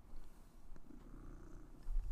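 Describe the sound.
A male cat purrs in a steady, low, continuous rumble. The purr stays faint throughout and swells slightly toward the end.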